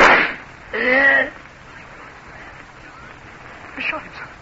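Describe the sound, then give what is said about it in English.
A single pistol gunshot in a radio drama: a loud, sharp burst at the very start, followed by a stretch of talk and a fainter noise near the end. “He shot himself.”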